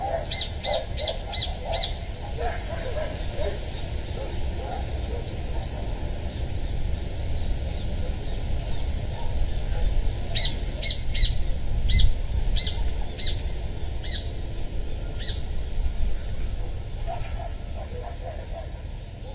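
Birds chirp and sing in the trees in short, bright bursts, one cluster near the start and another midway, over a steady low outdoor rumble and a constant thin high whine.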